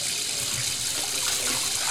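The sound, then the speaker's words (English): Water runs steadily into a barber's sink as a customer's freshly straightened, conked hair is washed out. The flow is a continuous, even hiss with splashing and no talk. “Let's head over to the sink and wash it out.”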